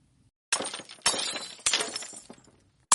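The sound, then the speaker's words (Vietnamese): Wine cups and chopsticks crash onto a floor in four sharp, shattering bursts of breaking glass with a clattering decay, the last one cut short, and no talk. “Vô số chén rượu và đũa rơi xuống mặt sàn, vang lên một loạt âm thanh liên tiếp.”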